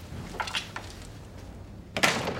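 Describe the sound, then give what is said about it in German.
A door is shut in a clubhouse, with faint soft knocks and rustles before one sharper thud near the end. “kommt herein und schließt die Tür hinter sich.”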